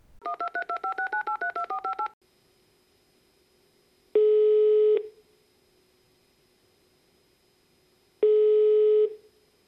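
A telephone being dialed: a rapid string of about a dozen touch-tone beeps, followed by two long, evenly spaced ringing tones separated by a few seconds of near silence, with no voices.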